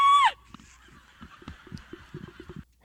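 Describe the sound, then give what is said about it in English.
A person imitates a goose, giving one loud, nasal honk at the very start, followed by faint, low, scattered sounds. “It's a funny bird impression.”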